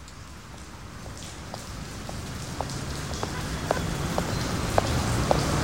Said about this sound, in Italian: Oh, benissimo, adesso lo sentiamo allora. E con la pioggia.